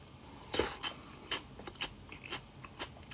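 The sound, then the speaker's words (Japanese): Chewing and crunchy biting on food: a few soft, crisp bites at irregular intervals, fairly faint, with no talk. “もうちょい食べ終わるから食べてからするか。”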